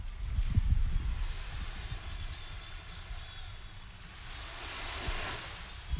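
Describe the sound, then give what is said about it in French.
Ocean waves: a broad, steady wash of noise that swells and recedes, brightest near the end, over a low rumble with faint thumps. “Je sais pas si on entend, c'est le bruit de vagues.”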